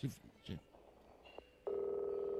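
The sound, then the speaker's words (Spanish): Telephone tones while dialing a long number for a call answered in French: voices speak briefly at first, a short tone follows, then a loud, steady two-pitch tone holds to the end. “Estamos marcando para hablar con Sifri.”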